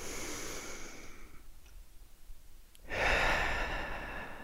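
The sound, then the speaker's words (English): A deep breath in and out: an airy inhale at first, a quiet pause, then a louder, rushing exhale that swells and trails off gently. No one speaks over the breathing. “breath in and a deep breath out.”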